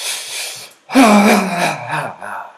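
Breathing while shaking up and down barefoot on the earth. A breathy rush, a short pause, then a long voiced, moaning exhale that sinks slightly in pitch, loud and close.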